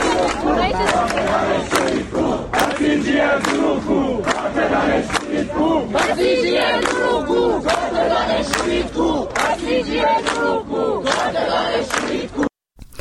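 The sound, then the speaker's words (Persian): Students protesting at the University of Tehran's Faculty of Engineering chant slogans together in loud, rhythmic bursts repeated over and over. The chanting stops abruptly just before the end. “دانشگاه تهران، دانشکده فنی هم تجمع کردن. صدای دانشجویان دانشکده فنی رو بشنویم.”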